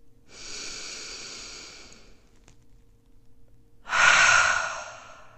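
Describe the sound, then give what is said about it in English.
Deep breathing during a guided meditation: a long, soft, airy inhale, a quiet pause, then a louder, breathier exhale that fades out. No one talks over it. “Two more times. Inhale. Exhale. One more time.”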